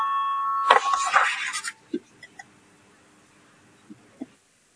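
A bell rung in a parliament chamber to call a vote: a brief ringing tone swells into a loud, harsh burst of about a second, then fades to a few soft, scattered taps in quiet.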